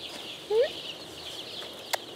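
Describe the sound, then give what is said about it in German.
Four-day-old male chicks, all little roosters, in a poultry barn: a faint, steady chorus of high peeping, with one louder, lower rising call and a brief click later. “Diese 5000 Küken sind vor 4 Tagen geschlüpft und es sind ausnahmslos kleine Hähnchen.”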